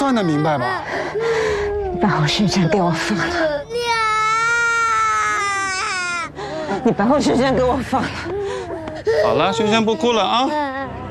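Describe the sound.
A little girl crying hard, with loud, sobbing wails, gasping breaths and whimpers, and one long, high, sustained wail in the middle.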